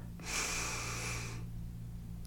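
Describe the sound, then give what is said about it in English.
A deep inhale through the nose during a guided breathing exercise: one long, airy hiss of breath lasting about a second, over a faint steady low hum. “Take a deep inhale, fill your belly up.”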